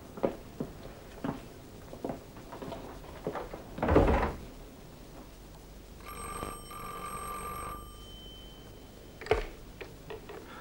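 A telephone rings once with a bright electronic trill lasting about two seconds. Before it come scattered clicks, knocks and a heavier thump, and a faint click follows.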